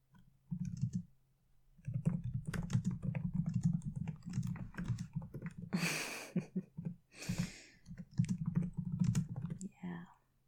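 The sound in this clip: Fast typing on a computer keyboard, a dense stream of crisp clicks in several bursts separated by short pauses, with a steady low hum beneath.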